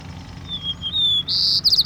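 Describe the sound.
White-crowned sparrow song: a couple of thin, clear high whistles, then a loud buzzy burst and a quick trill of rapid notes at the end, with no voices.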